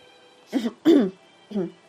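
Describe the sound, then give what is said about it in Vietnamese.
Three short, dry, voiced coughs like throat-clearing, the second the strongest, each a brief rasp separated by silence. “Mộ Đồ Tô vừa ho khan vừa lạnh lùng nhìn Bạch Chỉ”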